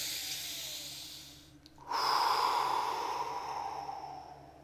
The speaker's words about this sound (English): Deep breath.